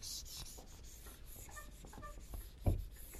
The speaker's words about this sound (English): let me write this on the board here. I'm going to write it on the board now.